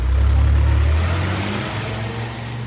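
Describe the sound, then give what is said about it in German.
Engine rumble of an open sports car and a Mercedes with German plates passing by: a loud, low drone that gradually fades away. “Ein offener Sportwagen mit zwei Damen. Rees quetscht sich auf den Rücksitz. Ein Mercedes mit deutscher Nummer und Ehepaar.”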